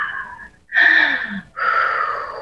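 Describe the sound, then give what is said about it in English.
Long breathy exhales during a guided breathing exercise: a few soft, airy rushes of breath, each sustained for most of a second, separated by brief pauses, with no talking. “Exhale.”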